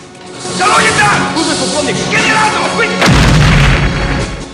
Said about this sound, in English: Rambo lobs a grenade, collapsing a walkway. Two guards fall to their doom.